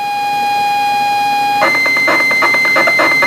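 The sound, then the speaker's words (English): A ZX Spectrum computer game loading from cassette tape: a loud, steady, high-pitched tone holds, then abruptly breaks into harsh, rapidly warbling data screeches and buzzes that continue to the end. “and it takes about 5-6 minutes for a game to load, and you get that noise. Do you know the noise? I am familiar with the Spectrum noise,”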